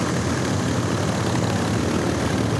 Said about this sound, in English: George and Nick watch from the dock as Joe taxis the Twin Beach out of the seaplane channel.